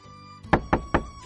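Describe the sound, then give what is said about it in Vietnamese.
Three firm knocks on a door, dull and evenly spaced, standing out over a faint steady background hum with nothing else heard. “Bỗng phía sau có tiếng gõ cửa.”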